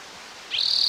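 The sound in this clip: A single high, thin bird call cuts in halfway through and holds as a steady, loud whistle to the end over faint background hiss.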